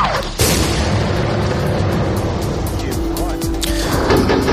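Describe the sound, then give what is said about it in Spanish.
Bombing of humanitarian corridors during a civilian evacuation: a sudden loud boom breaks in, then heavy, continuous rumbling roar that stays loud to the end. “Putin siguió bombardeando los corredores humanitarios por donde anunció que no lo iba a hacer. Por el lugar donde salían los civiles, este era el sonido que se escuchaba.”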